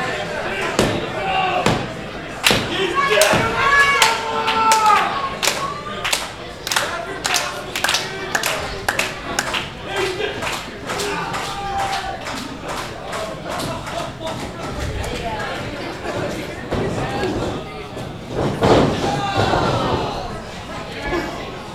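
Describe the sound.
Slams onto the mat at a pro wrestling match, many sharp thudding impacts in irregular bursts, mixed with crowd clapping and chatter while voices talk throughout.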